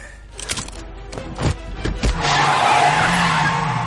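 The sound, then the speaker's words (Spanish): A car pulling away in first gear: a few knocks and engine sounds, then a loud rush of revving and tyre skid that swells and holds to the end. “pisa el embrague, mete la primera.”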